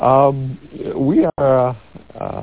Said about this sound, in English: sorry about the bird, I'm outdoors.